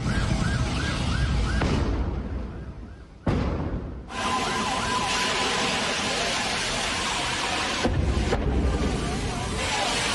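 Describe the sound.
Wailing emergency vehicle sirens at a fire in a gas cylinder dealer's depot in Tekkeköy, rising and falling over a loud, steady roar that drops away briefly partway through.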